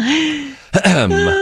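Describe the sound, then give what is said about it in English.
Someone clears their throat in a short, rough burst, with voiced vocal sounds just before and after it. “Sorry. Something in my throat. Excuse me.”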